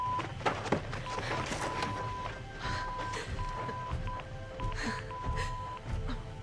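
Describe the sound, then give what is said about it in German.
Morse code beeps from a radio: a steady mid-pitched tone keyed on and off in short and long pulses. The beeps run throughout over loud crackling static, with occasional thumps. “Ich habe ewig nicht gemorst. Was sagt er?”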